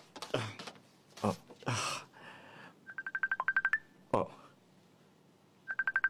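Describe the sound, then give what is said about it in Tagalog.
Touch-tone beeps as a telephone number is dialed on a keypad: a quick even run of short identical tones, then a few more after a pause, with brief speech sounds earlier. “Tawagan ko na lang siya.”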